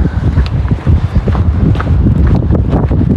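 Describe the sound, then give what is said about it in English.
Wind outdoors on a cold December day at minus two degrees, gusting and buffeting the microphone with a loud, rough low rumble that swells and eases unevenly. “So minus two, bit of wind.”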